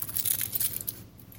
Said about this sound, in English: Okay, so that's half the shallot. Let's get this guy trimmed two.